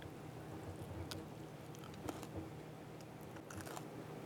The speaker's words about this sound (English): Take a bite of a big fat piece of juicy steak.